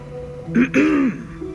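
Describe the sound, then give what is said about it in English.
A throat being cleared in a short, voiced rasp of two quick bursts, the second longer than the first, heard alone against quiet. “A throat cleared.”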